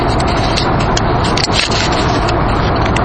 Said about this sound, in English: I hope you enjoyed that audio clip of our drive to the Marriott Ranch. And again, I'm sorry about the audio quality.